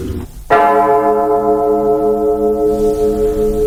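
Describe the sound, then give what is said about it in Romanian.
A clock bell strikes once, loud and resonant, then rings on as a long, sustained tone that slowly decays. “Ce sună ciudat! Mai are și clopotul ăsta. Doamne, cum trece timpul, am și uitat de ceas.”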